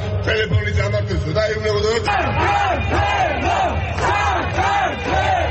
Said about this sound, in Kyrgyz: Тбилисинин башкы Руставели проспектисинде уюшулган нааразылык митингине миңдеген адам чыкты.